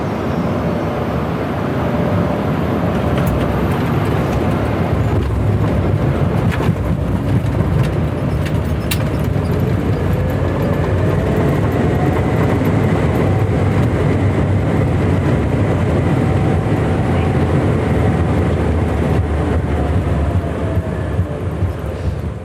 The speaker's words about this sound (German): unser A220 hat sanft an Höhe verloren. Hier ist die Landung für euch im Schnelldurchlauf.